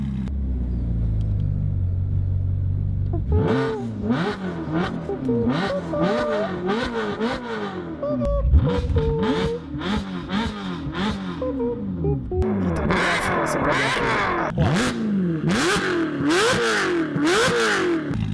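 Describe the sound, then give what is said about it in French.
A Ferrari V8 engine played loudly through speakers, a low idle rumble breaking into repeated sharp revs that climb and drop in pitch, loud and alone. “pour honorer sa mémoire, on va mettre un V8 de Ferrari à fond dans les enceintes.”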